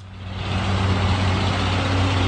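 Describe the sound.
Overloaded trucks of Afghans leaving Pakistan at the Torkham border crossing, roofs stacked with canisters and sacks, give a steady low diesel engine rumble that swells slightly at first and then holds loud and even, with no voices.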